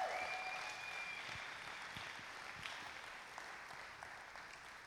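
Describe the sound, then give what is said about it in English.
A church audience applauds for the children during a service with quiet, continuous clapping that eases slightly over time, a few individual claps standing out near the end. “let's make some noise for our children”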